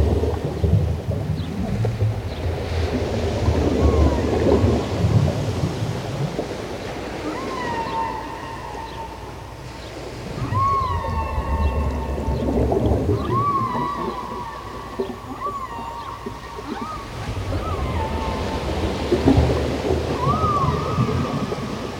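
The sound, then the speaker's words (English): Deep-sea underwater ambience: a low, surging rumble swells and fades throughout, while a series of high, rising tonal calls repeats through the middle and later part. “That was the sound of the depth.”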